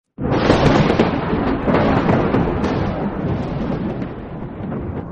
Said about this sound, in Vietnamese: Ngay lúc đó, một tia sét khổng lồ lóe sáng trên đỉnh Thái Lăng Cát.